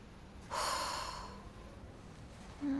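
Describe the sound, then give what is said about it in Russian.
A dark-haired boy sitting by a window breathes mournfully onto the glass, fogging it with condensation. One soft, breathy exhale starts abruptly and slowly fades, followed near the end by a faint short breath. “Темноволосый мальчик, сидя у окна, тоскливо дышит на стекло, образуя конденсат.”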